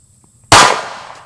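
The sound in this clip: A single gunshot rings out at a gun range, a sudden loud crack after near-silence, followed by a short, decaying tail.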